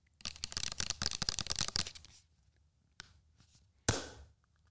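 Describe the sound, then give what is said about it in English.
A sticker is peeled off a leave-in conditioner bottle, making a faint, dense crackling rustle for about two seconds. Two separate short, crisp ticks follow after a pause. “I'm doing ASMR. Taking off the sticker.”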